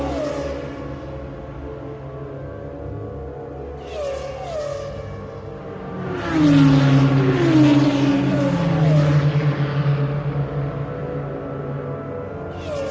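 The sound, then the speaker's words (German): A race car accelerates at full throttle through a right-left corner combination on a racing circuit. A steady, droning engine note swells louder midway through, its pitch shifting through gear changes, then settles back. “The pace is higher. Noch einmal auf Gas. Die wird im Formel 1 wahrscheinlich im vierten Gang.”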